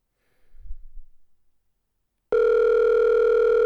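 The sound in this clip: A telephone dial tone sounds as a call is being placed. It starts abruptly after a short quiet stretch with a faint low rumble, then holds steady, loud and unbroken to the end.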